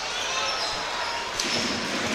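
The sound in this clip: A basketball dribbled during a game gives a run of dull, repeated bounces against steady background noise.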